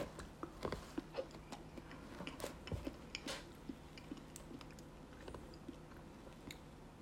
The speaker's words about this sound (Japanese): では実食といきましょうチョコミントアイスですいただきます